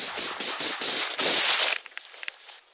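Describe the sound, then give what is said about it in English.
Gunfire, including a high-powered rifle, recorded on a police body camera during a domestic disturbance call: many loud, harsh cracking shots in rapid succession, then fainter scattered pops as the burst dies away. “all of a sudden, the shooting began, as heard on this police body camera video”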